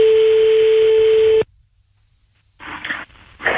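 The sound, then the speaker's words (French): A steady telephone tone sounds as a call is dialed, holding one pitch loudly for over a second before cutting off abruptly, leaving near silence and then a few crackly bursts of line noise. “on y va, c'est parti, on appelle Johan”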